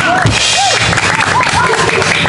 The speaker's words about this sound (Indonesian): Tepuk tangan yang meriah untuk drummer The Bandits.